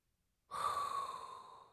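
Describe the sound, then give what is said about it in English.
A single long inhaled breath starts abruptly after a short silence, carrying a faint voiced, whistly tone, then gradually fades over about a second. “And that is inhale a hot breath”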